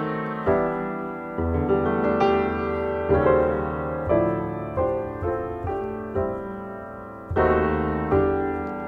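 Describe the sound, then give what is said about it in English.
Diminished chords are played in a jazz progression as a steady series of struck, sustained chords. Each rings and decays before the next, with a brief pause before the final few. “This is a sound you hear a lot of in jazz. It's how we use these diminished chords.”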